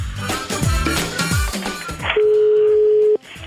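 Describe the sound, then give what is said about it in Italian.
Ringing tone of an outgoing telephone call: after a stretch of music, one steady, pure tone holds for about a second before cutting off abruptly. “Chiama Borghezio, lo ha chiamato, sentite.”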